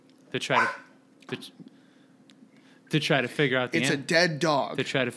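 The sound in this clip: A dog barks and whimpers: a couple of short whines and yips, then a longer burst of rapid barking and whining.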